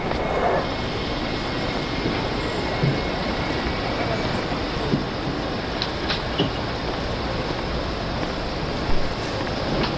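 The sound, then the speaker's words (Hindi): A train bound for Tehran gives off a dense, steady rumble that fills the whole stretch, with a few faint clanks scattered over it. “ये Mashhad की train? नहीं aunty, Tehran की train है”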